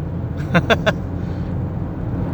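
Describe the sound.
A car being driven gives a steady low droning rumble throughout, with a brief burst of voice near the start.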